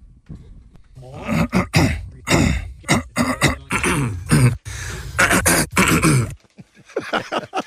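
Two men clear their throats one after the other. Many short, rough, gravelly bursts come in quick succession, with brief gaps and uneven loudness, ending in a few fainter clears.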